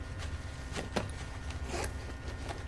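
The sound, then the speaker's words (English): A purse being opened in a bathroom: a few faint, soft zipper-like rustles and scrapes spaced over a low, steady background hum. “She opens her purse, pulls out a little cosmetics packet.”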